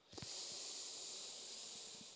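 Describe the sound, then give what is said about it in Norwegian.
Slow inhalation through the nose during a calming bedtime breathing exercise: a soft, steady, airy hiss that lasts about two seconds, with nothing else heard. “Og da starter vi med å puste inn gjennom nesa,”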